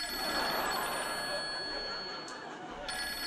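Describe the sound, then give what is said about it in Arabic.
A telephone rings over a dense, noisy background, its tone steady and continuous through the short stretch. “ابي ارد على هالتليفون”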